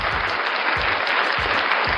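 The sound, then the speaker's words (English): Audience applause: dense, steady clapping from many hands that holds at an even, fairly loud level throughout, with soft low thumps underneath. “Didn't need an audience applause on that, but I take it though.”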